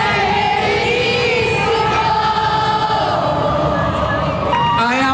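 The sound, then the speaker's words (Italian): A concert audience answers the singer in unison, a loud sustained chorus of many voices that holds steady over a dense bed of crowd noise. “Sono mancato? Chiede al pubblico, e con il pubblico scherza. La risposta è un coro unanime.”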